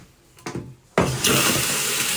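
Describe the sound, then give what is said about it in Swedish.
A toilet flushing in a closed, vandalized school building in Gothenburg: a few faint knocks, then a sudden loud rush of water that stays steady and broad to the end. “När P4 Göteborg är inne i skolans lokaler går det att sätta på torkskåpen och spola i toaletterna.”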